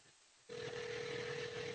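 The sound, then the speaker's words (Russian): A steady telephone line tone comes on suddenly as a call is placed from a radio studio, holding one even pitch to the end above faint low background noise. “Я наберу на его телефон из студии”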